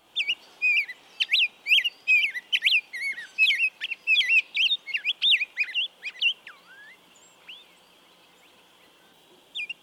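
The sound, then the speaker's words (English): Rose-breasted grosbeak song: a rapid stream of sweet, whistled, warbling phrases running together for about six seconds, then near quiet with a faint closing note. “The rose-breasted grosbeak improvises quite a bit on the basic sing-song pattern and has been said to sound like a robin that has taken voice lessons.”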